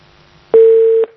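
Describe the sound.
A telephone busy tone sounds after a caller's line is cut off: one loud, steady, mid-pitched beep lasting about half a second, heard alone after a faint low hum.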